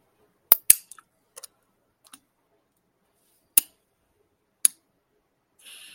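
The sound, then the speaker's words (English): DynaVap vaporizer clicking as it heats, heard as several sharp, dry clicks scattered irregularly, some close together in quick pairs, with silence between them. “There you go. You had the first click, and that's how you know that you're ready to hit your pen.”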